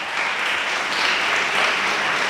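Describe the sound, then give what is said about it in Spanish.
Audience applause at a motivational talk: a dense, steady clatter of many hands clapping that holds at an even level throughout, with no break. “Dale un aplauso a Dios por eso.”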